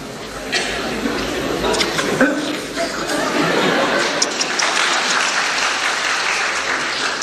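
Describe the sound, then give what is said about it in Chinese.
Audience applause during a live cooking performance with soup poured from top to bottom. A sustained wash of clapping swells and holds, with voices over it and a touch of laughter. “这里肯定有掌声。”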